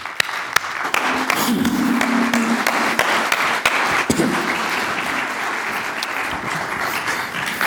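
Audience applause welcoming a guest: a dense, steady wash of clapping that holds an even loudness from start to finish.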